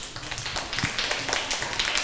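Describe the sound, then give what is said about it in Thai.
Classroom students clap for a classmate, giving a dense, steady patter of many hands. “ปรบมือให้กับเพื่อนด้วยค่ะ”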